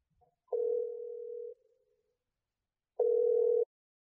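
Ringback tones on a telephone call ringing through to voicemail: two steady mid-pitched electronic tones separated by silence, the first about a second long and the second shorter.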